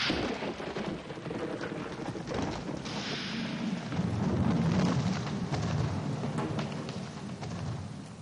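Thunder from a lightning strike: a faint, broad rumble that swells in the middle and slowly fades, over a steady rain-like hiss.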